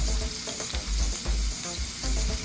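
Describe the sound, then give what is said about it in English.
Garlic sizzling in a small pool of hot oil in a tilted pan: a loud, continuous crackling hiss with light stirring sounds throughout. “Now what I'm gonna do is tilt this just a little bit so you get that little pool of oil. And then I'm gonna add my garlic in there, and that's gonna kind of flavor my oil.”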